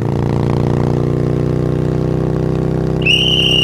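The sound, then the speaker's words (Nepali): A motorcycle engine drones at a steady, loud pitch, and a shrill whistle cuts in near the end. “यसरी लुकेर बसेर स्पिडमा आइरहेको मोटरसाइकललाई ज्याप रोक्न त भएन नि सर, धन्नै एक्सिडेन्ट भयो”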